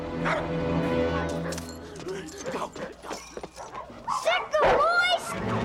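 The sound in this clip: Several released caged dogs bark, yip and whimper in overlapping bursts. The calls grow busier and louder toward the end.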